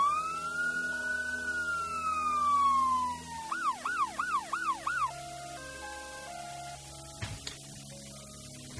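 An ambulance siren gives one long wail that rises and then falls, then switches to a rapid warbling yelp, followed by steadier electronic tones.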